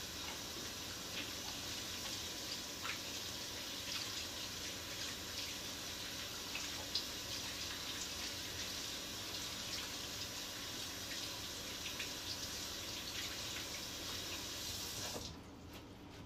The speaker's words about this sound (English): I'm going to wash my hands now. So, I wash my hands.